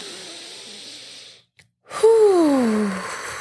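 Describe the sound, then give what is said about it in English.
A deep breath drawn in through the nose and let out through the mouth: a soft, airy inhale, a brief pause, then a louder voiced exhale that falls in pitch as it fades. “Let's take a deep breath in through the nose, out through the mouth.”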